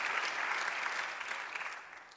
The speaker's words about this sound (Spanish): Dar un aplauso al Señor.